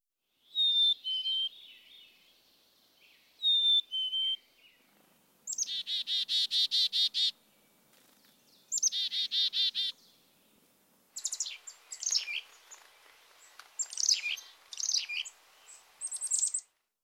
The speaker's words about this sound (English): Black-capped chickadee.